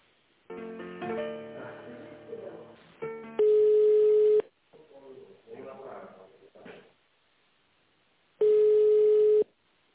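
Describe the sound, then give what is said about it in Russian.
Telephone line tones sound while a call is being transferred. Two long, steady, mid-pitched beeps of about a second each are separated by stretches of talking, and other voices and sounds come before them. “Здравствуйте, это не Наталья, сейчас минуточку соединю вас.”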